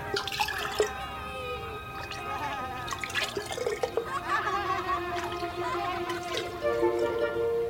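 Fruit drink is poured into a small jug, a faint trickling and gurgling stream with scattered drips that runs steadily for several seconds.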